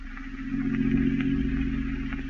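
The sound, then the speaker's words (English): Steady engine drone of a car being driven, a low, even rumble with a faint rattle that holds at about the same loudness throughout, with no voices. “And an hour later, as you and Douglas drove in his car toward your aunt's house.”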